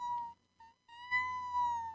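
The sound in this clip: A person's voice imitates a cat meowing outside a door: a couple of short, clear tonal yelps, then a longer drawn-out steady meow, fairly quiet.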